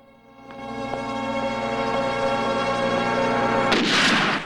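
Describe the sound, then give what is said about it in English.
A single loud, sharp gunshot from a golden gun in a James Bond film scene, cracking near the end after a sustained droning tonal background. “Bond moves out into the road searching for the direction the shot came from.”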